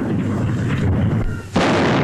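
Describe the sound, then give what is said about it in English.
An artillery gun salute fired at the Tower by the Honourable Artillery Company, a heavy rumbling boom that fades before a second sharp, loud blast breaks in near the end. “At the tower, the salute is fired by the Honourable Artillery Company.”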